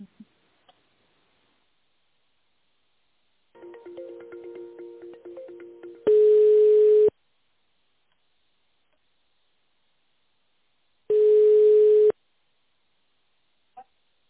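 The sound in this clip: A telephone ringback tone while a call connects: two steady single-pitch beeps, each about a second long, separated by a few seconds of silence. Faint clicking and connection noises come before them.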